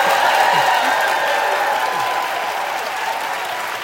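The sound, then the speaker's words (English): An audience at a live radio event with an author breaks into dense, sustained applause that stays loud and steady throughout. “Are you getting used to that kind of applause”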